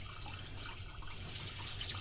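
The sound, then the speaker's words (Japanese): Running water splashes in a steady, continuous hiss as a Chinese yam is washed to remove soil, with no talking. “土はね、ちゃんと落としたいのでしっかり洗ってくださいね。”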